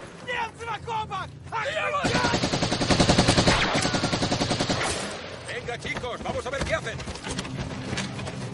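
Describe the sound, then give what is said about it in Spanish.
Gunfire in a WWII trench battle: dense, rapid bursts of automatic fire build to a loud, continuous barrage, then thin out to scattered shots while voices call out before and after the heaviest volley. “lanzan dos granadas. Abaten a varios rusos.”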